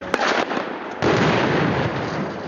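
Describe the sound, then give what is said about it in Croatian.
Gunfire crackling on all sides in a dense, unbroken clatter of sharp pops, with a louder surge about midway through and no voices. “Na sve strane puca.”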